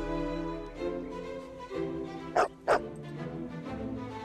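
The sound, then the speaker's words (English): A dog on a ground floor balcony gives two quick, sharp barks close together midway through, heard over steady, sustained musical tones. “Summoned by her bark, he finds her on a ground floor balcony.”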